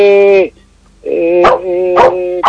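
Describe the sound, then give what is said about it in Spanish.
A dog barks loudly as someone arrives: about four howl-toned, whining barks, the first separated from the rest by a short pause. “Pero aquí le está ladrando, porque algo está pidiendo, algo está avisando.”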